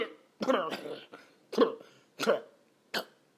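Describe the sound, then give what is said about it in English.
A person coughs in a few harsh, voiced bursts about a second apart, each with a throaty, hiccup-like catch, separated by quiet gaps. “Coughing every damn where.”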